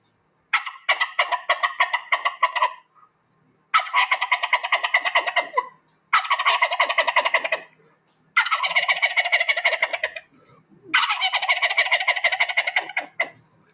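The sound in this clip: A human voice imitates a turkey gobble in five rattling bursts separated by short silences, the first opening with separate clucks that quicken into a rapid warbling gobble.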